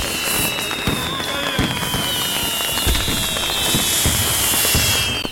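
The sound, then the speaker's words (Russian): Fireworks burst in a dark sky during a night celebration, a loud, continuous crackle of many sharp pops and bangs that overlap without pause throughout. “Их счастливые лица озаряют взмывающие в темное небо огни фейерверка.”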